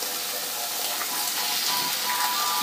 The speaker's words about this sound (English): And now I'm gonna crack the two eggs right on top.